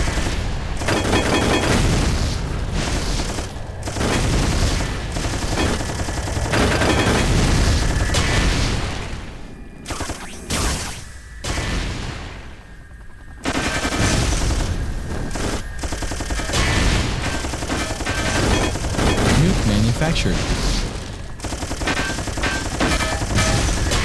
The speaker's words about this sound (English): Nukes. Machine gun. Holy crap.